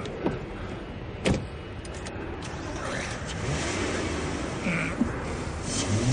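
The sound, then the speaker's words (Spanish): A car starts and speeds off as a man flees police in a thriller scene. A couple of sharp clicks come early, then a steady engine roar slowly grows louder. “Rodemilo corre hacia su coche, se quita las gafas de pega y arranca saliendo de allí a toda prisa.”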